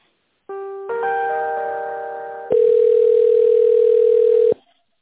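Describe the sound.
A telephone line tone sounds while a call is being transferred. A steady electronic tone starts, becomes a multi-note chord that fades slightly, then switches to a louder single steady tone for about two seconds before cutting off.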